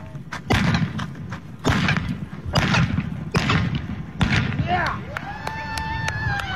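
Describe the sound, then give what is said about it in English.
Blank rounds fired from two pistols by a rider on a galloping horse during mounted shooting, a series of sharp, loud cracks at uneven intervals over a rumbling low background. “shoot five rounds of blanks from two different pistols while riding at breakneck speed on a horse”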